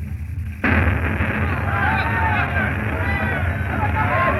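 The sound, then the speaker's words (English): Explosion of a house holding 5,000 grenades and guns: after about half a second a sudden, loud blast breaks in and swells into a sustained, dense roar, with voices audible beneath it. “Whole place blew up. What was it? The end of John Lechner, Bacolo. There were 5,000 grenades in there with those guns.”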